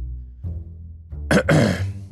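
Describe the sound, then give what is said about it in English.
Someone clears their throat: a low grunt is followed by a rough, raspy burst of two quick pushes of air. “when you hear just a clear of the throat but behind you”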